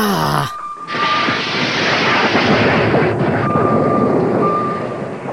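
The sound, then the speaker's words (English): Torpedoes launched from a submarine as a comedy sound effect: a brief tone cuts off, then a loud, sustained rushing roar follows, with a faint high beep running through it and no voices. “Prepare to launch torpedoes on my mark.”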